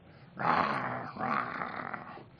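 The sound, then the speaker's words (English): A dog growling in two low, rough bursts, the first slightly stronger, with a short gap between them; fairly soft overall, with no talk over it. “Somebody get this dog out. Why do we have to have this dog here? Whose dog is this dog?”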